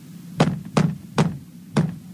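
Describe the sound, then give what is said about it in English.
Four knocks on a wall, dull and fairly soft, evenly spaced with a slightly longer gap before the last one, over a faint low hum. “It sounded like the wall knocked back at me.”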